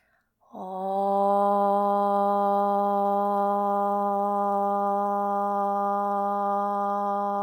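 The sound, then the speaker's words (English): A single sustained Om chanted by one voice to close a yoga practice, a steady low hum rich in overtones that starts after a brief breath and holds evenly for about seven seconds. “let's seal our practice today with a single Om. First, take a full breath in through your nose. Sigh this breath out. Inhale to chant.”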